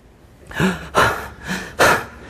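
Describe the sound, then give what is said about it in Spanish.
Heavy panting of someone catching their breath after exercise: four loud, breathy gasps in an uneven rhythm, with no talk over them. “recuperar el aliento, recuperarte.”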